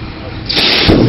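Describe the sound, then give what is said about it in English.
Cells venting violently in a burning fire give a loud, harsh roaring hiss that swells sharply about halfway through and stays at full force to the end. “You just saw the successive venting of the third and fourth cells. In this demonstration, the fire continues to burn hotter with each reaction, and each cell venting becomes more violent.”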